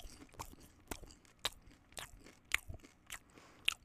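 Crisp crunching and chewing of popcorn, ASMR style, with no talk: a run of sharp, irregular bites, some louder and snappier than others, with softer munching in between.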